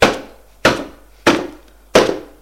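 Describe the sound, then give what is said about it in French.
Four heavy bangs as an angry man pounds on a door, evenly spaced and loud, each a sharp wooden thud with a short ringing decay and no voices between them. “Il est furieux. Il tape contre la porte.”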